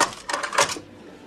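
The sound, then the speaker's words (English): A hotel desk clerk slides a credit card through a reader: a few quick, scratchy, rattling bursts in close succession, then a softer tail fading into quiet, with no talk. “Dana Ivy, the desk clerk, gets him checked in and everything. It just kind of happens. Her sliding the credit card.”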